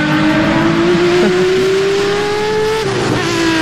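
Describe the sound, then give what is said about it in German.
Loud, continuous Ferrari sports car engine revving, a steady droning tone that climbs gradually in pitch, then drops sharply near the end before settling again. No voices. “wir reden miteinander über Ferrari. Steht für Leistung, Emotionen und natürlich den unverwechselbaren Klang von einem Sportwagen.”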